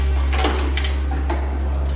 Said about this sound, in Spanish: A continuación, disfrazado con el uniforme del funcionario, utiliza sus llaves para abrir la sala de control.